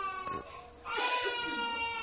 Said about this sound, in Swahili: Nyie huyo mtoto wamshike mtoto analia, tupigia fujo.